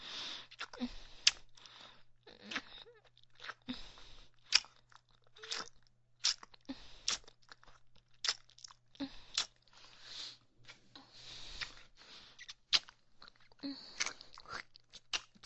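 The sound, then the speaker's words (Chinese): Chewing and crunching of glutinous rice cake (ciba), with many close, quiet bites and mouth sounds following one another in an uneven but steady rhythm through the whole clip. “真太好吃了，彤彤的糍粑，我真的太喜欢了，喜欢的不行”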